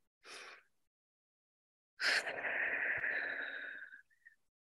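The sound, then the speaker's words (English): Deep inhale during guided meditation breathing: a short breath sound, then a longer drawn breath of about two seconds, airy and soft, with a faint whistling edge before it stops. “So go ahead on that next and final inhale.”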